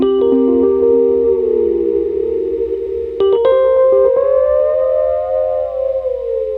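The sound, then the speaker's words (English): Keyboard notes run through an MF delay pedal set for pitch bends, forming a sustained, siren-like tone that sags, takes a brief sharp attack partway through, then swells upward and slowly falls again. “this MF delay I use for pitch bends, because, you know, sometimes I like to pitch bend because Ben can do it, and yeah, I want to do it too, so it kind of sounds like this.”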